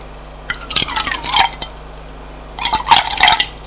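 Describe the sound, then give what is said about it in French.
Whisky glugs from a bottle into a glass in two separate pours, each a burst of splashing, trickling liquid with a short quiet gap between them. “Sur la table basse, elle prend la bouteille de whisky et un verre.”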